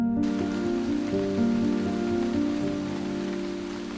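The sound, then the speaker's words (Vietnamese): Heavy rain pours down at night on a poor hamlet in newly cleared land, a dense, steady hiss that continues throughout with a low, sustained tonal hum beneath it. “Đó là một đêm trời mưa không dứt. Trận mưa xối xả trút xuống cái xóm nghèo”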